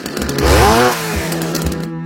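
A chainsaw runs in a short, loud burst, revving up and back down in pitch before chugging on with a rough, uneven rhythm.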